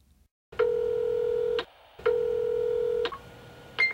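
Electronic beep tones from a telephone answering machine: two long, steady, mid-pitched beeps of about a second each, then a brief blip at the very end.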